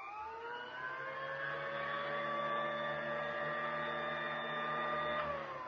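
Steady mechanical hum of a sweeper machine idling while standing in place, not in use; an even, continuous drone with layered whining tones that holds unchanged throughout, with no voices.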